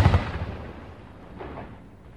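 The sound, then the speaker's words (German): A single cannon shot fired from a pirate ship out over the open sea: one deep boom at the start that trails into a long, fading rumble. “Er torkelte zur nächsten Kanone und feuerte einen Schuss aufs offene Meer hinaus.”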